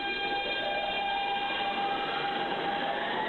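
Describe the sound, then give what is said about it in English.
A moving train gives a steady, unbroken rumble with a faint high whine running through it, even in loudness from start to finish. “So that's a train moving.”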